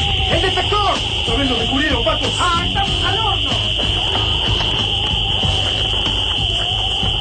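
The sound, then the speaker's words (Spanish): An alarm sounds with a loud, steady, high-pitched tone that holds unbroken for the whole clip in a town plaza, with voices rising and falling beneath it during the first half. “La alarma vuelve lava candente a Plaza San Martín.”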